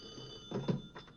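A telephone rings in a film scene with a woman in a tanning bed. It gives a couple of short, bright, buzzing rings over a faint steady tone, with no talking.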